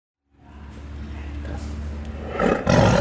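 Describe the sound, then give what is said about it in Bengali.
A tiger roaring in a deep, rough, rumbling roar that starts from silence, holds steady, and grows louder and harsher toward the end. “ভাবুন তো, এই যে বাঘের গর্জন, জঙ্গল থেকে এই বাঘের গর্জন যদি হারিয়ে যায় চিরদিনের মতো, কি হবে ভেবে দেখেছেন একবার?”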